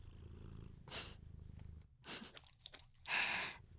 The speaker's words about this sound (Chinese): 我怎么知道他为什么要舔你啊？我才想问呢。难道你的耳朵有他喜欢的味道吗？